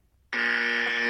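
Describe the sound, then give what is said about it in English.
A small handheld buzzer used in a science debate game: one harsh, steady electronic buzz that starts abruptly after a brief silence and holds loud and unbroken to the end. “And when I want to know more mind-blowing science, I'm going to bring this little buzzer.”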